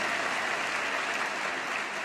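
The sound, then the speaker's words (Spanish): A church audience applauds during a sermon, a steady wash of many hands clapping at moderate volume that carries evenly through the short stretch with no voices on top. “Y a ese Dios le aplaudimos con alegría de corazón.”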